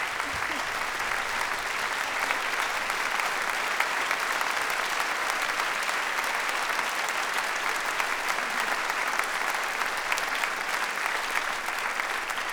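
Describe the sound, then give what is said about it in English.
Audience applause for a performing orchestra and its musicians: a steady, dense clapping of many hands that holds at an even level throughout, with no break. “I would like to ask your applause also to this extraordinary orchestra that is the Flemish Radio Orchestra, conducted by Maestro Bjart Engeset.”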